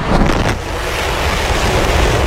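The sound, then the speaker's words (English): A SpaceX Starship rocket launches at Starbase, Texas, with a continuous, dense roaring rumble like strong wind. It holds at a steady, loud level throughout, with no voices. “SpaceX's massive Starship rocket sent into orbit today for the first time.”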